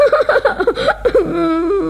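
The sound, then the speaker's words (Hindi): A voice imitating crying: a quick run of short, wavering sobbing bursts, then a longer drawn-out wail that holds at a steady pitch. Loud and fairly close-sounding, with no other talk during the sobs. “दोस्तों, क्या तुम भोलू की तरह रोकर दिखा सकते हो? हाँ, ऐसे।”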